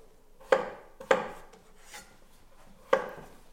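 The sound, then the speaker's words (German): Knife cutting potatoes with the skins left on into quarters: three sharp, crisp strokes with short decaying rasps, plus a fainter tap between the second and third, in an uneven rhythm with no talk. “Diese Kartoffeln schneiden wir in, ja, wir sechseln sie, wir vierteln die, je nachdem, wie groß sie dann wirklich sind.”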